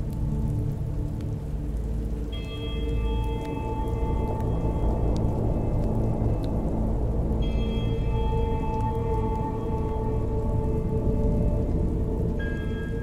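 Heavy rain pours down in a steady, dense hiss that stays even and unbroken for the whole stretch, with sustained tones layered over it.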